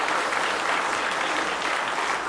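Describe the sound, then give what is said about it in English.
An audience gives a hand clap of praise at a church service: dense, steady applause from many hands, loud and sustained without a break. “Let's give him a big hand clap of praise tonight.”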